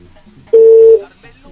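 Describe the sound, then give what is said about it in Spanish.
A single loud, steady telephone tone lasts about half a second as another call is placed. Faint murmuring sits before and after it. “Nos vamos con otra llamada telefónica.”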